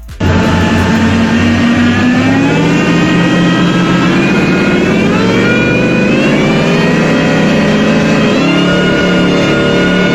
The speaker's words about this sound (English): What's that sound? Speedboat.